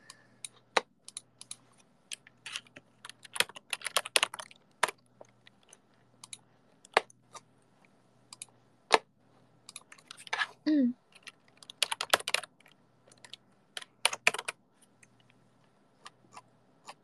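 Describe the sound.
Typing on a computer keyboard: bursts of quick, clicky keystrokes at an irregular pace, separated by quiet pauses, with a brief voice sound partway through.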